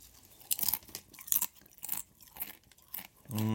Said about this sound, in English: Do you want to eat one chip in the mic like ASMR?